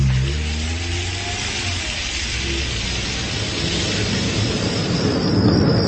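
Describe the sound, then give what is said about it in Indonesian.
Car engine warmed up in a parking lot, then driven off. A continuous low engine drone with layered tones grows louder and rougher toward the end as it pulls away. No one speaks. “aku memanaskan mobilku sejenak. Dan setelah merasa cukup, memastikan tidak ada barang yang tertinggal, aku pun langsung bergegas menancap gas dan langsung pulang sendiri.”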